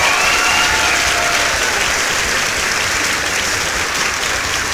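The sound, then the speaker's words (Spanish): Applause from a crowd for a birthday greeting, a dense, steady patter of clapping that holds evenly for the whole stretch. “Un aplauso, gente, por favor.”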